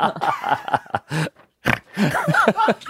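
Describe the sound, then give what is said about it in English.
A person snorts in a few short, nasal, grunting bursts, with talk around them. “Snort.”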